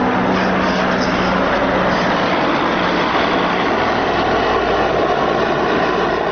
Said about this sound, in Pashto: د مرجه پر اسمان د بارنوي ځواکونو دوه چورلکي یوه جوټ او یوه هم ډیره ستره کشفي الوتکه ګرځي